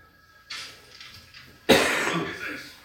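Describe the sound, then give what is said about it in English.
Coughing from a lingering cold: two harsh, breathy cough bursts, the second louder and longer, with another cough just starting at the very end, amid quiet background. “Last bits of my cold are left. It's awesome. Coughing. Coughing.”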